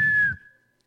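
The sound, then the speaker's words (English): A whistled imitation of an incoming missile: a single short, high whistle that dips slightly in pitch, then fades away quickly into silence. “When you're hearing the word, that's the sound of the missile.”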